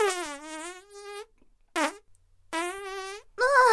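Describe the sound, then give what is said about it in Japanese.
A person lets out a series of four loud, tonal, buzzing farts, the first long and drawn out and the rest shorter, with no talk over them. “ごめんごめん。おなら出ちゃった。私ね、おなら結構出ちゃう方なんだ。”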